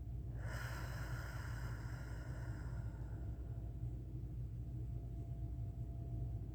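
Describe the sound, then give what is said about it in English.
A long exhale out through the mouth during a guided breathing exercise, following a deep inhale and a brief hold. The breathy hiss begins sharply and fades gradually over about two and a half seconds above a steady low rumble. “And then hold it just for a second. And exhale out the mouth.”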